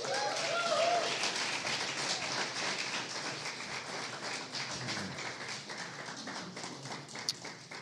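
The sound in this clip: An audience in Cajun country applauds to welcome a speaker to the stage. The clapping is a dense, steady patter of many hands that holds at a fairly even level for the whole stretch.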